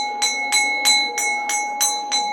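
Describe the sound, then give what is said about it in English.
A school bell rings with a steady, bright electric tone, broken by a quick, even run of repeated strikes that pulse at a regular rhythm throughout. “Oops, the bell's ringing.”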